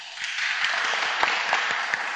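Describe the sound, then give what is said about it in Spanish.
Audience applause welcomes a composer at a concert: a steady wash of many hands clapping, with a few sharper individual claps standing out, moderately loud and even throughout. “Luis Jure, que nos acompaña esta tarde y a quien damos la bienvenida con un aplauso.”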